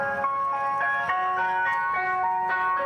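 An ice cream van plays its jingle, a tinny, electronic-sounding melody of bright sustained notes that carries on steadily and alone, with no talking.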